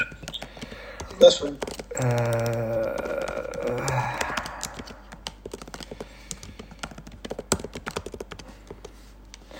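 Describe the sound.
Quick, light taps of someone typing a short text message on a phone, scattered and faint, continuing for several seconds, with a voice speaking briefly near the start.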